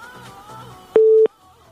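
A single steady electronic telephone tone sounds as a call fails to connect, one loud flat beep lasting about a third of a second, with soft music fading just before it and a faint low hum after.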